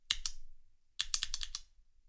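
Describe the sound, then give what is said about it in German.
Sharp clicks of a button pressed on a device to set its volume: two quick presses, a short pause, then a fast run of several more presses, with no talking. “wenn ich jetzt die Lautstärke auf 30 Prozent haben möchte, passt auf, wie es sich dann anhört, wenn ich die Taste drücke.”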